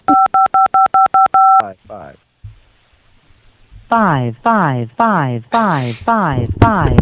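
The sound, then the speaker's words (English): Telephone keypad tones dialing an extension: a quick run of identical two-tone beeps, as if one key is pressed repeatedly, followed by a person speaking. “If you know your party's extension, you may dial it at any time. To leave a general message, please dial 0. I know my party's extension.”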